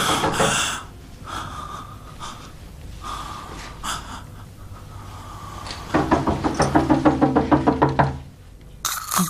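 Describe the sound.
Someone knocks on a door. After a stretch of quieter rustling and breathing, a fast run of many sharp, evenly spaced raps lasts about two seconds.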